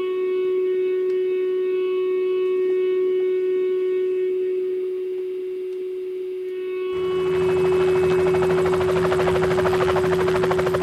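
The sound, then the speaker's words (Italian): Helicopter flying overhead above a crowded military ship: a steady droning hum with sustained tones, joined about two-thirds of the way through by a loud, broad rushing roar that carries on to the end. “Questo elicottero da sopra e tutti che gridavano salutavano quello che guidava l'elicottero”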